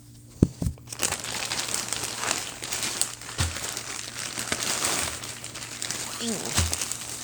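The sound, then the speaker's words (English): Plastic crinkles and rustles as a double-layered plastic bag is cut open while unboxing a suit, with a few sharper crackles early on followed by steady handling noise. “I need to put the phone down for a moment because I tried to cut this open and I only got through one layer of the plastic, so I need my other hand.”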